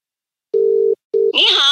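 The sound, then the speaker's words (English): Calling tone on a telephone while ringing someone: two short, steady mid-pitched beeps with a gap between them, then a voice answering on the line. “Can we see if we can dial her up? Yeah, sure, sure. No worries. I'll call her now.”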